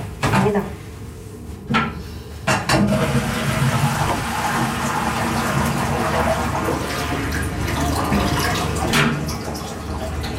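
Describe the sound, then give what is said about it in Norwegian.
Toilet flushing away shredded paper: a loud, steady rush of water lasting several seconds, with a few sharp knocks near the start and another near the end. “Den hemmelige rapporten, som nå ligger i 1000 biter i Beiruts kloaksystem,”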